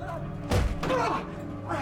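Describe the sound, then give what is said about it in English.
A heavy thud as a man is shoved against a wall and kicked: one sharp impact, then a duller knock, mixed with strained vocal sounds. “She pushes him against the wall, then kicks him ferociously.”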